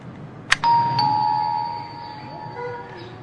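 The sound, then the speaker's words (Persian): A small doorbell rings: a brief click, then a bright electronic chime that sustains and slowly fades, with a second strike coming about half a second after the first. “مستاجرمونن، زنگ کوچیک رو بزنی.”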